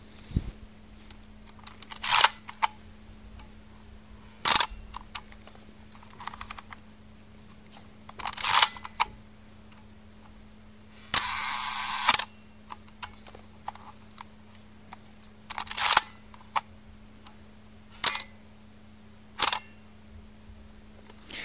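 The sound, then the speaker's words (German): Shutter releases of a Praktica MTL 5B camera built in Dresden, fired at 1/30 second, at one second and in bulb mode: several sharp mechanical clicks and clunks spaced apart, including one longer buzzy whir, over a faint steady hum. “Das war eine Praktika MTL 5B, gebaut hier in Dresden. Zuerst mit einer 30. Sekunde Belichtungszeit, dann mit einer Sekunde und zum Schluss im Bulb-Mode.”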